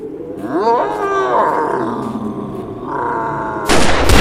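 A gunshot fired at a charging grizzly bear cracks out loudly near the end, following several seconds of deep, drawn-out roaring and growling.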